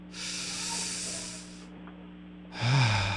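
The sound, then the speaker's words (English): During a guided breathing exercise, one long, deep, rushing breath lasts over a second. After a short quiet gap, a second strong breath begins with an audible voiced sigh. “Take three deep breaths. I don't have to hear it on the mic, but you guys will be able to hear me.”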